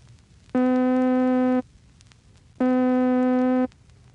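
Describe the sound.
Two middle C tones, each with a rapid attack and a rapid cutoff, hold steady for about a second apiece and are separated by a short pause. Their timbre is bright and rich in overtones.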